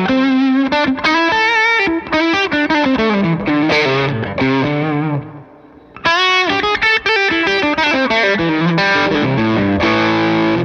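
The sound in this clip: Overdriven electric guitar on the bridge pickup with the tone control rolled down, played uncompressed. Loud melodic phrases of sustained and sliding notes come in bursts, with a brief pause midway before the playing resumes.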